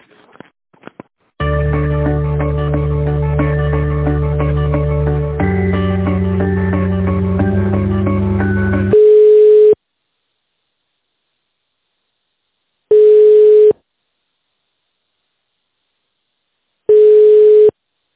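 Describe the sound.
Telephone line tones during a call transfer: a stretch of dense, layered tonal hold sound, then three steady single-pitch beeps spaced evenly apart with silence between them.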